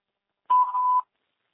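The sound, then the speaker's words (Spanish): A voicemail answering machine tone sounds alone after silence: one steady, mid-pitched electronic beep lasting about half a second, then silence again. “Hello, no one is available to take your call. Please leave a message after the tone.”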